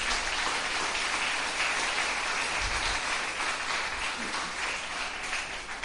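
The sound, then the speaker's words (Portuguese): Sustained applause from a church audience during a service: a dense, even wash of many hands clapping that holds steady at one level for the whole stretch. “Você pode aplaudir o Messias por causa disso?”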